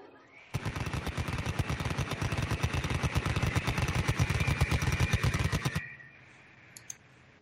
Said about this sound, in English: I can spin up the Vulcan, and we can go rapid fire.